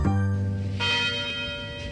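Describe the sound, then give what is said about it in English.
University tower chimes ringing, with several bell strokes overlapping into a sustained, resonant wash of metallic tones that keeps sounding between strikes, with no voices. “The University Tower chimes ring in another session of Ask the Professor”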